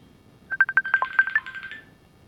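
Telephone call tones as a connection fails to complete: a quick run of short electronic beeps leads into a smoother, sustained tone, moderately loud and with no talk.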